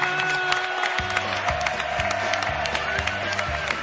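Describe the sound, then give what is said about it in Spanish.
Audience applause on a studio show, dense clapping and crowd noise over a rhythmic, low musical beat that runs throughout. “un aplauso grande”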